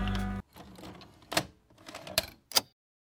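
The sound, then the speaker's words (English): A cassette tape is popped into a player, with mechanical clatter and a few sharp, hard clacks of the mechanism. A short low hum comes just before them, and the sound is fairly quiet overall. “But without further ado, I'll just pop on this tape, so...”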